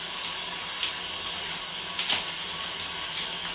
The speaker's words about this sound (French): Mais je profite un petit peu de l'eau chaude dans les cheveux et sur le dos.